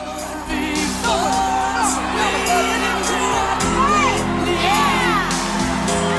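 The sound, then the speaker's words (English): Crowd on its feet cheering a new champion, a loud wash of shouts and rising whoops that continues throughout. “The crowd are all on their feet, applauding and cheering.”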